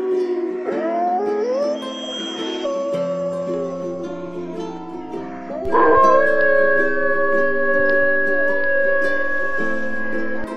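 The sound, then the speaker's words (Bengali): Jackals howl together in long, wavering, overlapping cries that form a continuous layered chorus, growing louder partway through. “শেয়ালদের ডাক শুনে নীল শেয়াল তো একদম নিজেকে ধরে রাখতে পারলো না। সেও ডাকতে শুরু করলো”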